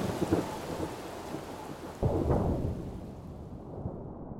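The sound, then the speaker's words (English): Storm on the Tasman Sea with strong southwesterly winds, thick rain squalls and choppy seas: a dense, steady roar of rain and wind over low rumbling, with a louder surge midway before the hiss thins toward the end. “the Tasman's weather is getting worse. Strong southwesterly winds, thick rain squalls, and nasty, choppy seas.”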